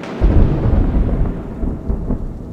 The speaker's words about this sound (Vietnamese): Lời của ông vừa dừng lại, cũng là lúc hàng chục tiếng sấm nổ động trời vang lên chát chúa.